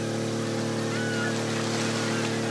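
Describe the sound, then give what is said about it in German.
A motorboat with a 200 hp outboard engine races up on the Alster, its steady, droning engine hum holding an even pitch throughout, with no voices over it. “Jetzt komme ich mit meinem 200 PS Außenborder.”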